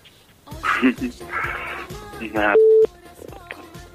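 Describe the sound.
A rejected phone call gives a brief, steady telephone busy tone that sounds once among talking voices and other electronic beeps.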